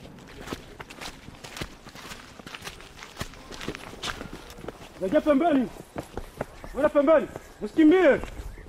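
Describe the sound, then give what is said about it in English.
Footsteps of park rangers jogging single file through a forest behind a tracking dog: many quick, light steps in a steady patter, with a voice speaking over the later part. “Sabrina darts off into the forest, her nose to the ground. The rangers jog behind her, single file.”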